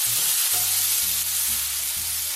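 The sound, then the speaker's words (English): Blistering tomatoes sizzle in a pan while being stirred, a steady loud frying hiss that runs throughout with no talk. “While the tomatoes continue to blister, I'm going to give them one more stir.”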